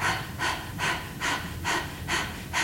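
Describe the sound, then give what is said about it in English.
Rapid panting breath from the cooling form of the Breath of Fire breathing practice: a steady, regular series of short, airy puffs, strong and even, with no voice. “If you want to cool down, you pant.”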